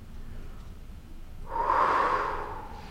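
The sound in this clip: A single deep, audible breath during a guided relaxation exercise with gentle muscle tension. A soft rush of air begins midway after quiet and carries on steadily to the end.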